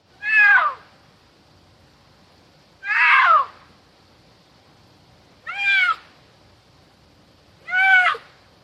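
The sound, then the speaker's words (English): Four cougar calls at Yellowstone, each a loud, short, harmonic screech with a wailing, cat-like tone, spaced about two to three seconds apart with quiet in between. “Might sound familiar even if you don't live near a national park, but listen to this. This is a cougar.”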